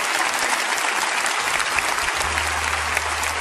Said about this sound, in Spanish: Denles un buen aplauso